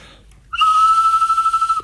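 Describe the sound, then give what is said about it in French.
A toy whistle is blown, and blowing it makes a toy bird move. It gives a single high, steady piping note of just over a second, starting abruptly with a slight warble and fluttering softly toward the end, with no talking. “Ils sont tout différents, les sifflets. J'aime bien celui-là, moi. Puis quand vous sifflez, l'oiseau, il bouge.”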